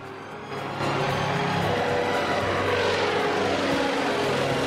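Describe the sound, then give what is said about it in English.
A seaplane's propeller engine starts up and the plane takes off. A low drone quickly steps up into a loud, continuous propeller whir and engine roar that holds steady to the end. “now the pilot is starting the seaplane up. The propellers whir into life, and the plane takes off.”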